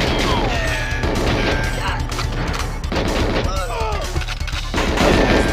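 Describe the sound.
Guards in a video game open fire through a doorway, sending out many sharp shots and rapid bursts in a dense, loud barrage that runs throughout.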